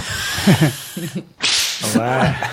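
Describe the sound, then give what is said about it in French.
A voice imitates a whip crack with a quick, hissing swish that sweeps upward in pitch, set between stretches of conversational talk. “Je peux avoir au moins un petit coup de fouet.”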